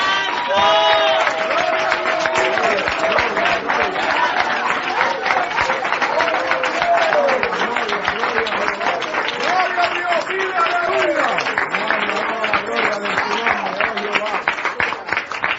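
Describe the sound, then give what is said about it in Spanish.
Sustained hand clapping and applause during a church service, a dense, loud patter of many claps that continues without pause, with a speaking voice carrying over it throughout. “Voy a aplaudir porque algunos no pueden ahora.”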